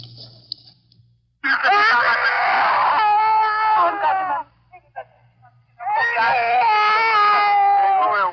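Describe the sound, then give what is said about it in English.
A child wails in Korea: two long, loud, high-pitched cries separated by a brief pause, over a steady low hum. “The wailing of a child in Korea.”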